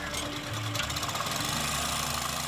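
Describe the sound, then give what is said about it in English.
Air compressor pumping air into fabric lifting pontoons attached to a trap's skids on the seafloor, giving a steady, loud mechanical drone with a rapid pulsing beat throughout. “The compressor pumps air into fabric pontoons attached to the trap's skids, which rest on the seafloor.”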